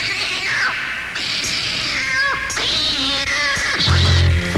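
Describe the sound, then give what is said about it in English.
A cat meows in several drawn-out cries with a wavering pitch, set against a dense, steady background of other sound. “Got me a kitty. Nice kitty. He sounds like this.”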